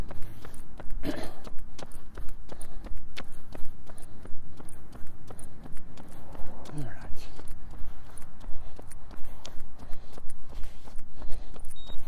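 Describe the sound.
Footsteps walk along a road past a mailbox, a steady run of light steps under a continuous outdoor background noise.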